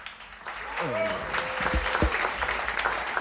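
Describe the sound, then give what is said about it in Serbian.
An audience applauds musicians of a jazz trio with piano, double bass and drums. The clapping swells up quickly and holds steady, with a voice heard briefly as it begins. “molim vas za jedan aplauz, pripremite dlanove.”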